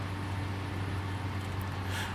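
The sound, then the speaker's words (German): Inside a naturally aspirated diesel car at 120 km/h on the Autobahn, with the door trim removed, a steady, even roar of road and engine noise holds over a low droning hum. “Guck mal, ich fahre jetzt 120 mit meinem Saugdiesel auf der Autobahn.”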